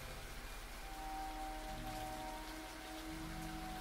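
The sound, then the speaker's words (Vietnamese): Rain shower falling steadily, a dense, even hiss of drops on surfaces that holds at the same level throughout with no break. “Trời vẫn mưa”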